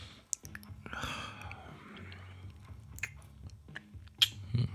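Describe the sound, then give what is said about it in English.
Soft, wet kissing smacks on a person's thighs, heard as a few faint lip clicks with breathy whispering between them. “As for you, let me kiss these sexy thighs.”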